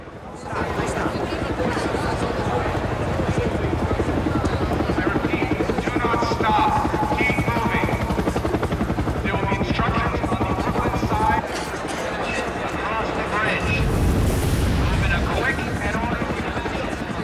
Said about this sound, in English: Orders are issued from a helicopter hovering overhead.